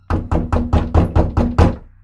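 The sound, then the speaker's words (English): Knocking on a front door around midnight: eight firm, evenly spaced knocks in a steady rhythm, heard alone. “Around midnight that night, someone began to knock on our door.”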